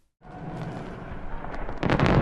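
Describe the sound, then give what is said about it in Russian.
Fireworks explode at the opening of a summit in Beijing: a dense, rumbling crackle swells up after a brief silence and grows louder, with sharper bursts toward the end. “Все началось с фейерверков.”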